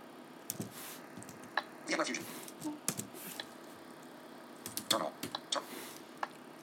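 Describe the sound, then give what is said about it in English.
Computer keyboard typing as a script is entered in a terminal: faint, irregular clicks and taps arriving in small bursts with pauses between them. “And I'm going to just type in a script here.”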